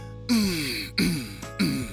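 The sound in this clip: Throat clearing done as a voice exercise: three rough, voiced bursts, each starting sharply and drawn out with a falling pitch.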